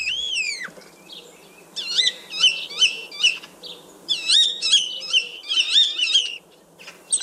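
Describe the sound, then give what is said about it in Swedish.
Common starling singing, a busy run of sharp whistles, rising and falling slurred notes and rapid chattering clicks. The song comes in several quick bursts separated by short pauses. “Men vi ska börja och lyssna på själva bara starens ljud rent här först.”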